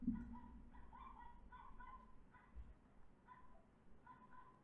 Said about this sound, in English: I don't know if y'all can hear the dog having a panic attack outside. It sounds like a squeaky toy.